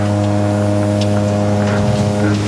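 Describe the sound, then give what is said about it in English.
A motorboat racing sound effect, heard as a loud, steady engine drone with a strong hum that holds nearly even throughout, with a few rougher surges toward the end. “I haven't played this damn boat racing sound all year.”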